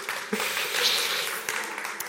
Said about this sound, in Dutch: Nou, geef jezelf maar eens een applaus, hè? Dat mag.